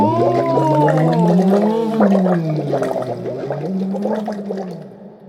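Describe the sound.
A voice glides smoothly up and down in pitch in a siren-like roller-coaster sweep, a speech therapy exercise for closing the soft palate. The sustained, unbroken tone rises and dips in several waves.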